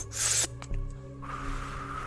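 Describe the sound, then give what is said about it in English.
Grinding, scraping metal from an old, rusty escalator that hasn't run in years, as it begins to move: a loud, harsh hissing rasp at first, then rougher scraping and a steady, lower grinding drone. “as the metal starts to grind like it hasn't been used in years, the sound of rust scraping up against itself as the escalator begins to move.”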